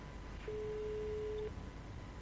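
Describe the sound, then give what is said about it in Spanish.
A telephone ringback tone during a live call to a company: one steady, mid-pitched tone lasting about a second, sounding once over low background hiss. “A ver. Estamos llamando en vivo.”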